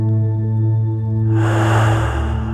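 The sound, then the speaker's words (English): Deep breath exhaled during a guided meditation: a loud, breathy rushing whoosh that swells in over a steady low humming drone and holds to the end. “Take a deep breath in, gathering all of your awareness into your heart center, and breathe out,”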